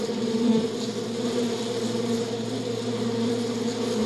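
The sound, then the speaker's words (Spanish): Bees buzzing among their hives make a steady, continuous drone with a low hum and rich overtones, holding an even loudness throughout with no voices. “Percibe la delicada forma en que trabajan las abejas. Zumban de colmena en colmena, algunas más grandes que otras.”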